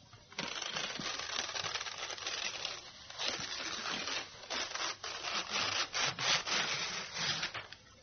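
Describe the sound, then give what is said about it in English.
Newspaper is torn into strips at a table, producing many rasping rips in a steady run. The strokes grow more choppy and separated toward the end, with no voices. “McCann is sitting at the table, tearing a newspaper into five equal strips.”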